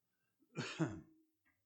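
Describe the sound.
A single rough throat-clearing during a sermon, with two quick harsh pushes close together, then a faint breath trailing off into quiet.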